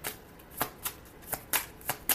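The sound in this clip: Tarot cards are shuffled before a card is drawn, heard as several quick, soft riffling bursts at uneven intervals, quiet and alone.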